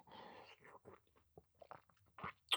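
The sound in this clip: Chewing on daifuku, a soft Japanese rice cake: faint, moist mouth sounds arrive as a handful of brief, scattered bursts, and the loudest bite comes at the very end.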